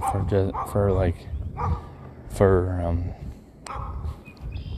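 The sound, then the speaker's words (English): A dog barks and yips in a few short bursts, with some drawn-out whining cries among them, all over a steady background noise. “ignore the barking and the noises in the background.”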